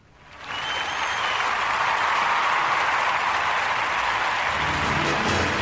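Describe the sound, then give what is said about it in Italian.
A studio audience in a large television studio applauds and cheers while doing a stadium-style wave. The noise swells within the first half second, then holds as a loud, continuous roar of clapping for about five seconds. “Ok, ne pensa che stanno facendo una Ola nel nostro studio, nel nostro gigantesco studio.”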